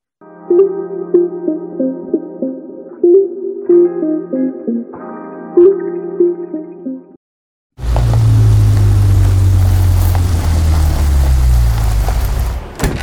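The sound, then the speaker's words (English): A car pulling over and stopping: after several seconds of music, a loud steady road and engine rumble sets in, its low drone sinking slightly as the car slows. “Why'd we stop? I've been driving for 6 hours. Your turn behind the wheel.”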